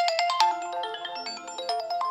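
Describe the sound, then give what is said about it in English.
A mobile phone ringtone plays a quick, bright melody of electronic tones that hop between pitches, heard alone with no voices. “Excuse me, my phone they ring.”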